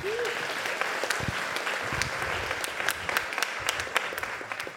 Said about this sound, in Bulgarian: Нека да му удадем аплодисменти поне.